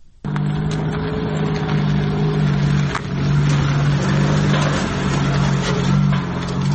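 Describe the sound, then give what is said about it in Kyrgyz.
Engine drone of a small cargo truck carrying dried dung fuel through a village in Kyrgyzstan. A steady low hum sets in abruptly and runs on continuously, with light rattles over the top. “жүк ташуучу чакан унаасы менен айыл аралап темир тезек алып келетат”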